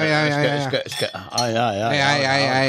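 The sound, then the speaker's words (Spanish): Wine glasses clink together in a studio, bright ringing chimes carrying sustained tones that waver and linger, with a sharp clatter partway through. “Hay copas de verdad en el estudio, ¿eh? Y vino de verdad.”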